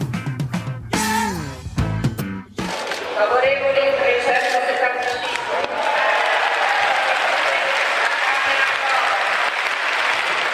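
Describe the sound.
Applause in parliament after a vote passes: a voice speaks briefly at the start, then a dense, steady wash of clapping from many hands carries on loudly to the end.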